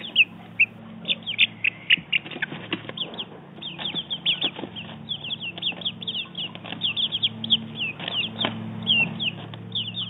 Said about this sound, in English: That was the sound of our four-week-old chicks.